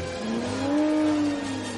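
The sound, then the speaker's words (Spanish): Roaring engines of a Jaguar and another car speeding through a corridor in a film chase scene: a loud, steady revving drone that climbs slightly in pitch, holds, then drops away. “En el pasillo, el Jaguar choca con una columna. Ambos coches atraviesan el pasillo”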